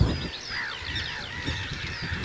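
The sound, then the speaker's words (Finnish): Honking of a flock of barnacle geese flying over a forest: many overlapping nasal calls sound continuously over a steady background hiss. “Hanhiletka. Valkoposkihanhilta näyttää tästä nopeasti katsottuna.”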